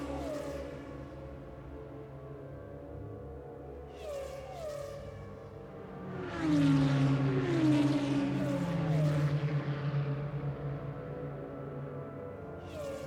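A race car engine accelerating through a right-left combination of corners: a droning, harmonic engine note that climbs in pitch several times, swelling louder in the middle as the revs rise. No voices are heard.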